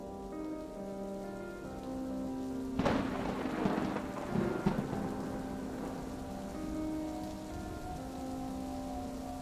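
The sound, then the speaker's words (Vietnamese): A heavy rain shower pours down steadily and fairly faintly, broken near the middle by a couple of rumbling thunder cracks, with a soft sustained tonal hum running underneath. “trời đổ cơn mưa rào rả rích, dập liên hồi như thác nước đổ xuống mặt đường”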